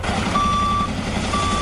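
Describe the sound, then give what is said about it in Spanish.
Reversing beeps from a firefighting truck working a wildfire in the Cinco Villas area of Zaragoza, Aragón. A long steady beep, a pause, then a second beep sound over a constant loud rumble of engine and noise. “Este es el sonido de los bomberos apagando las llamas.”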